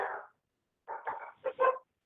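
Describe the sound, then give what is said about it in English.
Dogs barking at a house: a short bark, then a pause, then a quick cluster of several more barks, all fairly faint and with no talk over them. “I don't know if you guys hear the dogs barking in the background, but we must have somebody attacking the house.”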